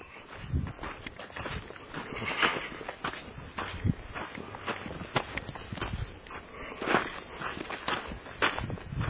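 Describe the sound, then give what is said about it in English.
Footsteps walk outdoors near a rural cemetery in open country: many faint, steady steps crunch continuously along the ground throughout. “And I'm going to walk this way.”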